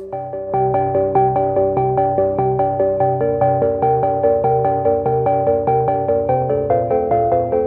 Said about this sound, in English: Do you have suspenseful music that you could play with this? I don't know. I'll find some. I'll play some suspenseful music.